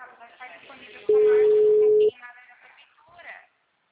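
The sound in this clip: A telephone line tone sounds while a call is being placed. One steady, loud, mid-pitched beep lasts about a second, with a voice talking before and after it.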